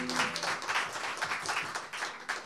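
An audience applauds to welcome a singer-songwriter, a steady, fairly faint patter of many hands clapping throughout.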